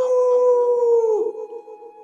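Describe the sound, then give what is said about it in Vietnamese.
Howling from a few fierce wild beasts in a forest, sounding like wolves: a loud, sustained tonal howl with strong overtones that holds steady, then drops in pitch partway through and trails off more roughly. “từng tiếng thú gào như sói kêu truyền ra”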